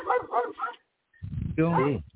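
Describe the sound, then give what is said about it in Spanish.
Dog barking: a few short, rhythmic yelping barks, then a longer voiced call that falls in pitch, heard amid people talking. “Hay un ruido por ahí. Alguien está ladrando ahí.”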